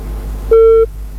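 A phone line's disconnect tone after a call drops: loud, steady electronic beeps at a fixed pitch, one full beep followed by the start of the next, with silence between them.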